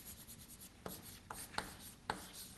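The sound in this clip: Writing on a board during a maths lecture: faint scratchy strokes broken by a few light taps and clicks, quiet and unhurried, with no talk.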